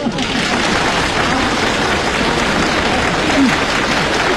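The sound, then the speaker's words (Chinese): Dense audience applause, loud and sustained, with steady clapping that carries on unbroken to the end. “先别鼓掌了，别鼓掌”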